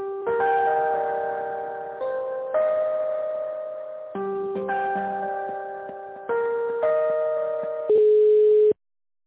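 Electronic telephone hold melody plays on the line while a call is transferred to a secretary: steady, clean tones in repeated phrases of about two seconds each, ending on one louder sustained note, with no voices.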